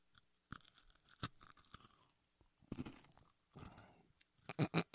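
Biting and chewing of dry food, heard as a quiet series of crisp crunches and soft chews that grow louder and quicker toward the end.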